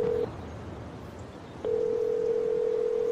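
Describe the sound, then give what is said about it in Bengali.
Telephone line tone as a call finally goes through after a long wait: a steady mid-pitched tone cuts off, leaving faint line hiss, then returns and holds to the end. “প্রায় 15 minute অপেক্ষা করার পর শেষে ফোনটা connect করতে পারলো ডান্সমোর।”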